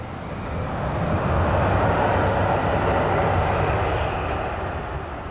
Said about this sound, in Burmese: J8 လေယာဉ်ဟာပြင်းလန်းကြောင်းတစ်လျှောက်အရှိန်မြင့်တက်လာပါတယ်